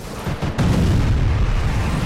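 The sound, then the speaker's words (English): Mark 77 incendiary bombs dropped on city streets and exploding into fire, heard as a loud, deep, rumbling blast that swells after a short burst and roars on steadily to the end. “Outside, the air cavalry drop the payload of Mark 77 incendiary bombs. They explode, creating a living carpet of fire which floods the streets.”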